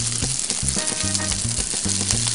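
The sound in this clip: Food sizzles and fries steadily in oil in a pan with a loud, dense, continuous crackle and no talking.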